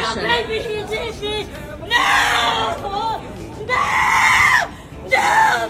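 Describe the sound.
A woman screams and squeals in several long, shrill bursts during a deportation. Her cries alternate with crowd chatter and other voices talking underneath.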